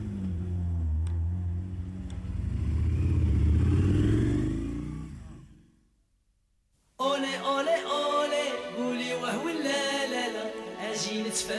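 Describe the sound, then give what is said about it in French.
Car engine rumbling and revving, a low throaty drone that swells to a peak and then fades away over about six seconds, followed by a brief silence. “On va avoir des beaux bruits de voiture, alors. Ouais, c'est bien, les voitures.”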